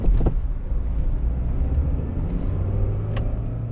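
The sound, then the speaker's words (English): A Mercedes car drives through Dobsonville, Soweto, its engine and tyres giving a steady, loud low rumble that holds evenly throughout. “I went back to Dobsonville and took a drive with one of them in his Mercedes.”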